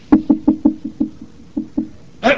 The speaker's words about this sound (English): he went up to the door and he knocked on the door.